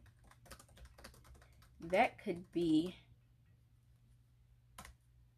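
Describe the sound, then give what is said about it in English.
Keyboard typing: a quick run of faint, light key clicks, then a brief moment of a voice, then a single last click. “let me type that real quick so I don't forget”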